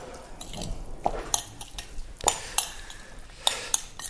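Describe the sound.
A metal spoon scoops and clinks against a pan of food during home cooking. The clinks and scrapes are soft and scattered, with a few sharper taps over low background noise.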